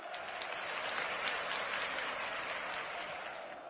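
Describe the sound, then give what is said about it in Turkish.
A crowd applauds steadily at a Triwizard Tournament-themed event as Hogwarts supporters are called on, an even, continuous patter of many hands at moderate volume. “Hogwarts'tansanız alkışlayın.”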